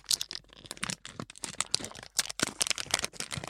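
Crinkling of packaging around individually wrapped items: many sharp, irregular crackles and rustles come in quick bursts with no voices.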